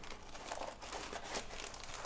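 Cardboard egg carton being bent by hand, giving a steady crinkling and crunching texture that runs without a break for about two seconds, with no voices over it.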